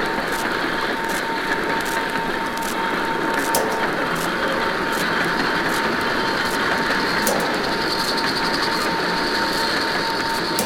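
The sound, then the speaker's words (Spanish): Trains rush through the night as a steady, dense roar that never lets up, with faint ticking clicks repeating across the top of the noise. “trenes desatados contra la noche. Furiosos en la oscuridad.”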